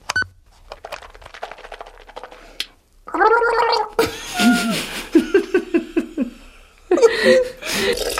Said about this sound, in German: ich war ja gerade beim Zähneputzen